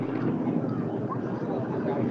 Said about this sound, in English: The helicopter is flying over again.